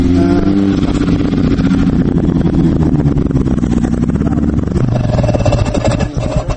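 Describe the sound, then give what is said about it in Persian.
A snow motorcycle engine runs on a snowy road, loud and steady, its rapid throbbing pulse rumbling throughout with shifting tone near the end. “این موتورسیکل برف کرد من اولین بار می دیدم این گونه نقلیات رو این مخصوص برای چنین راه‌های پر برف بوده است”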